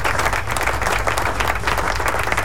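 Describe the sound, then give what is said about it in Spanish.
A crowd applauds with loud, dense, continuous clapping that holds steady from start to finish, with no voices standing out. “Así que aplauso.”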